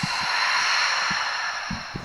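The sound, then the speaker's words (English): A deep breath in and out during a guided group breathing exercise. It is a long, steady, airy hiss with faint soft thumps beneath it. “Let's take a really deep breath in and out.”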